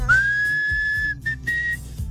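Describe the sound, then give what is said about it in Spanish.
Whistling opens a romantic-sounding rock song: one long, steady, high whistled note, then a short note and a longer held one, all over low, soft accompaniment and with no voices. “Y empieza chiflando, y así como romanticón, empezaba la rola.”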